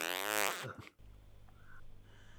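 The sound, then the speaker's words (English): A man's fart ripples out on a morning among coffee drinkers, a buzzy, wavering harmonic rasp lasting under a second that cuts off sharply and leaves a faint low hum. “And he lets a fart ripple through the morning air.”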